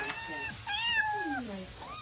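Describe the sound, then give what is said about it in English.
A small female house cat meows a few times. The drawn-out tonal cries include one long meow that slides down in pitch, over a steady faint hiss. “kitty cat.”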